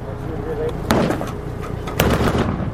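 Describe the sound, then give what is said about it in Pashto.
Gunfire exchanged between Afghan soldiers and Taliban fighters on the edge of Tarinkot at dusk: two sharp cracks stand out, with a few fainter shots over a constant rumbling background. “د ماښام تیاره لا نه وي خپره سوې، خو د ترینکوټ ښار په څنډو کې افغان سرتیری او طالبان پرې یو بل ډزې پیل کړې.”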